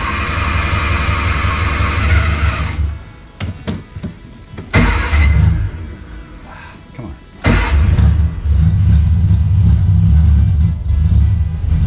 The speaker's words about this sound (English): to start it, I gotta push the clutch in, and this is the starter. And it takes a minute.